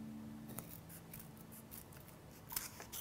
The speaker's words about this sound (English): So I'll grab some scissors, and I will trim down this here.